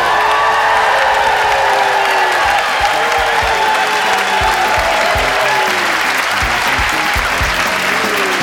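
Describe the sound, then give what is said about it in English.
An audience whooping and cheering over loud, steady applause at a sketch comedy show before a live crowd in Toronto's Randolph Theatre, with repeated falling whoops cutting through the clapping. “What's the noise going on there? I heard a woo.”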